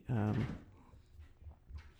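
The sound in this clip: A cat standing on its hind legs paws at a door, making a few soft, low thumps and rattles in the background. A brief voice sounds at the start, and the knocks follow at an uneven pace.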